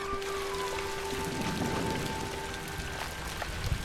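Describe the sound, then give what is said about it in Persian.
Steady rain pours down in a dense, even hiss of countless drops hitting a surface, holding constant throughout with no voices. “فکر میکنی بارون به این زودی ها باید بیاد تازه داره شدیدتر میشه”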